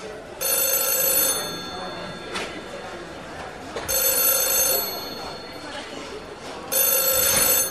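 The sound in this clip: A mobile phone rings in three bright, steady bursts of about a second each, separated by pauses of a few seconds, over low background noise.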